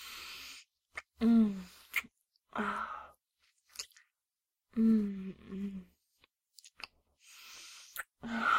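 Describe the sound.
Someone chewing food in short bouts of wet, soft chewing with small clicks, broken by several murmured, voiced sounds and quiet pauses between bites.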